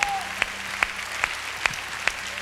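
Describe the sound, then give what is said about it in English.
A church audience claps in praise in unison: six sharp, evenly spaced claps about half a second apart, fairly faint over a quiet background. “Go ahead, give the Lord a hand clap of praise.”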